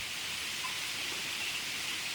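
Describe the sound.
Steady rain falling as a shower sets in, a dense continuous patter and hiss of drops at an even level throughout, with no voices.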